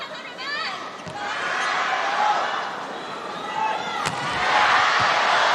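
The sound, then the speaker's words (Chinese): A volleyball serve is struck in a match against Japan, landing as a sharp smack that cuts through continuous commentary and murmuring crowd noise, with another softer thud earlier on. “李盈盈发球”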